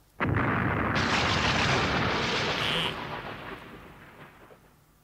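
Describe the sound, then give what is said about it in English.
A blast from a fictional neutron disintegrator weapon: a sudden loud boom bursts in, then a heavy roaring rumble sustains for a few seconds before tapering off into a fading tail. “Howard pressed the trigger of the neutron disintegrator. And the Dark Overlord disappeared in a tremendous flash of fire. And the spectroscope disintegrated with it.”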